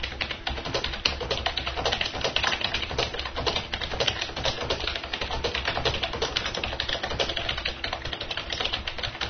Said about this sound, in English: We can type in something in Microsoft Word here.